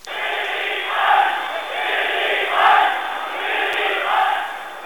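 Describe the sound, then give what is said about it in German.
Tens of thousands in an Erfurt crowd enthusiastically greet the chancellor, a loud, continuous roar of many voices cheering that swells and eases several times without letup. “In Erfurt wurde der Kanzler von Zehntausenden leidenschaftlich begrüßt.”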